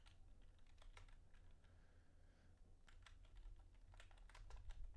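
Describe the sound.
Faint typing on a computer keyboard, many quick soft clicks in an uneven rhythm with brief pauses, over a low background hum.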